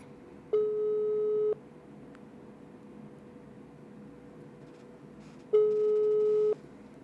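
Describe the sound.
Telephone busy signal heard while placing a call: two steady electronic tones, each lasting about a second and spaced roughly five seconds apart, over faint line hiss.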